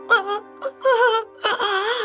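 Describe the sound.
A girl cries in several wavering, high-pitched wailing bursts separated by short gaps, the last one longest and loudest.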